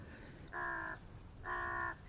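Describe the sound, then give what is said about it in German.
Ravens cawing: two drawn-out, harsh, nasal caws separated by a short pause, fairly faint above a low background rumble. “Schauen Sie die beiden Raben dort.”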